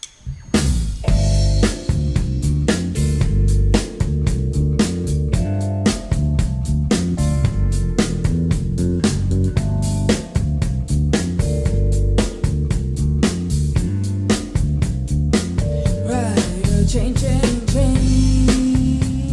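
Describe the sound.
Instrumental music for a summer concert performance plays loud and unbroken, with dense sustained harmonies, a steady bass line and many sharp percussive hits throughout.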